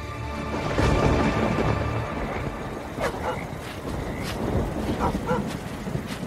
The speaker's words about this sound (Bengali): চিকাকে সঙ্গে নিয়ে ঝড় বাদল মাথায় নিয়ে কালি গোলা অন্ধকারের মধ্যে বেরিয়ে পড়ল ময়না।